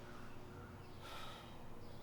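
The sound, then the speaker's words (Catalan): An annoyed huff: a single brief, sharp exhale through the nose, rising briefly above a steady background hiss. “Esbufega molest.”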